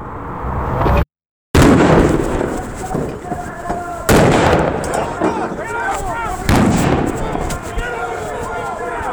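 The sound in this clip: Flashbang grenades explode during an FBI raid by agents in military-style tactical gear: a few loud, sharp blasts, each followed by a ringing rumble, with voices in the background.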